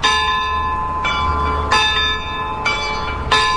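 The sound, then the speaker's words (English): Clock chimes from clockwork-driven bells: five struck bell tones, each ringing on into the next, with a steady low rumble underneath. “She likes the clock chimes. Those bells are activated by clockwork.”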